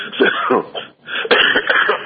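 Coughing and throat clearing from a man with flu, a few rough, raspy bursts broken by a short pause, on a band-limited line.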